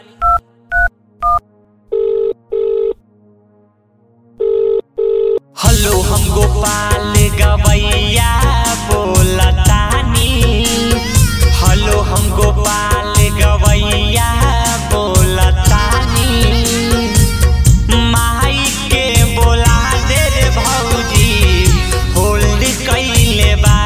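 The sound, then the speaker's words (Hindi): Touch-tone keypad beeps as a phone number is dialed to call a sister-in-law: a quick run of short tones, a brief pause, then a few longer paired tones, before loud music abruptly starts and fills the rest. “लागता कि भौजी के phone करे के पड़ी अच्छा रुका phone करो तनी”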